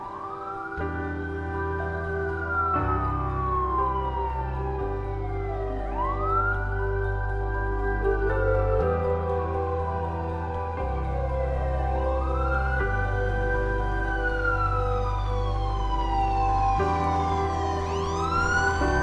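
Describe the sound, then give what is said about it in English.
A police car siren wails in slow, repeated rising and falling sweeps over a steady low engine drone, with quicker sweeps near the end and no talk. “as the police car approaches”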